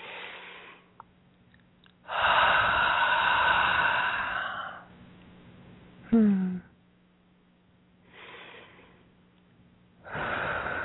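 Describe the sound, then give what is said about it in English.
One deep, slow breath of almost three seconds, taken during a guided meditation, is followed later by a couple of softer, shorter breathy sounds. “Another nice deep breath.”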